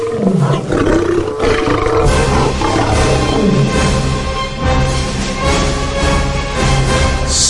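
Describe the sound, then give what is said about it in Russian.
A trapped lion roars furiously in a long, loud, continuous growl with rough, swooping rises and falls in pitch, filling the whole stretch without a break. “Увидев, что он оказался в ловушке, зверь яростно зарычал.”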